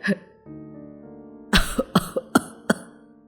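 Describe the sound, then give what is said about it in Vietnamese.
An old man coughs hard, a quick run of about six harsh, rasping coughs that follows a drawn-out low voiced sound. “ông cụ Giả ho lên sù sụ”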